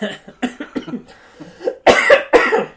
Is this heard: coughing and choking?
yes